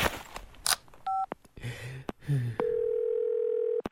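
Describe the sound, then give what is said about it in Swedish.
A telephone dial tone hums steadily for about a second as a call is placed. It follows a few clattering handling noises and a brief two-tone beep, then cuts off abruptly. “Alltså, var är jag nu? Jag måste ju ringa”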